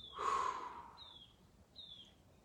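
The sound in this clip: Deep breathing out through the mouth during a guided breathing exercise: one long, soft, breathy exhale near the start, followed by quiet with a few faint high chirps.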